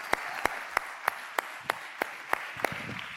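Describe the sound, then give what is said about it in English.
A church audience applauds to welcome a new youth pastor. Nine steady, evenly spaced claps stand out over a soft bed of broader applause. “Please give a great big welcome to our youth pastor, Joao Pires.”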